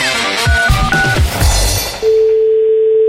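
Someone places a phone call to a supermarket. A quick run of telephone keypad beeps at varying pitches is followed by a steady, unbroken ringing tone that holds to the end.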